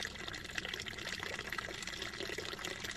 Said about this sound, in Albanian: e diku dëgjohet një rubinet uji i cili ka mbetur i hapur